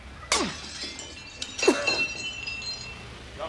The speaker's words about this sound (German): Wir müssen das Werkstattfenster einschlagen und durchs Fenster reinsteigen. Von da kommen wir dann in den ersten Stock rauf. Da ist ein Pflasterstock, schmeißen's den durch.